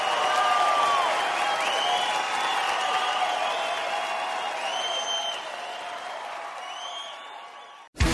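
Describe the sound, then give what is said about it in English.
Crowd applause and cheering voices at the close of a live stand-up comedy show in Santa Rosa, loud at first and slowly tapering before it cuts off abruptly near the end. “Clap for my gay friends tonight, who are amazing.”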